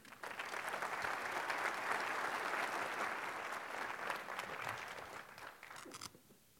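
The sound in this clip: Audience applause welcomes a speaker to the podium at a UNESCO panel address: dense, steady clapping from many people holds for about six seconds, then stops.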